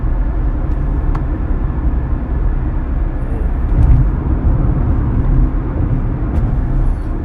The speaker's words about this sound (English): You guys hear that? You hear that all these noises you're hearing from my wonderful car, Lucky.